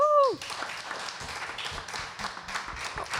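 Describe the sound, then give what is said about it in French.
Audience applause for a performer at a live show: a dense, steady patter of many hands clapping that follows a brief voice at the start. “Du bruit pour Yael, s'il vous plaît.”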